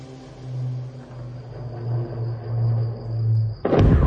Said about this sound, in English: That is the sound of US bombing on Wednesday night, targeting Iranian targets in the Persian Gulf.